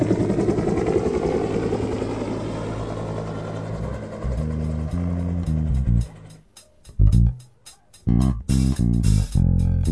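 An aircraft landing sound effect: a loud, droning engine roar with steady humming tones that gradually breaks up into choppy, stuttering bursts toward the end, with no talk.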